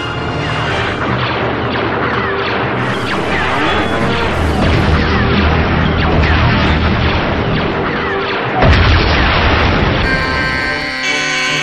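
A space cruiser blown up by gunfire in a video game: loud, continuous crashing and booming explosions that fill the whole stretch, with a steady buzzing, alarm-like tone joining near the end.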